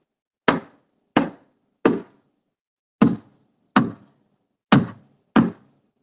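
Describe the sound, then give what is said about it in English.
Food stuck on a knife is slammed against a cutting board: seven loud, sharp wooden thuds, evenly spaced with a longer pause midway, with no talk. “Then just slam it against the tape, the cutting board.”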